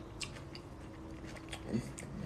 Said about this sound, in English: Let me eat this more. This food is so good. I'm like wanting to jump into this food. It's kind of spicy too.